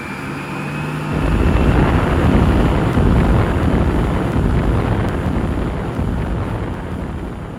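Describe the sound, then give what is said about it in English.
A spacecraft takes off into space with a deep, roaring rumble that surges in after about a second and then holds loud and steady, easing slightly toward the end, with no voices. “Oh, good. Safely away. It was a smooth takeoff.”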